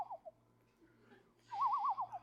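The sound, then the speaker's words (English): A person whistles imitation bird calls in a high school geometry class: a couple of short, high chirps, then a longer warbling trill of rapid up-and-down notes, clear and fairly loud. “just make little bird sounds.”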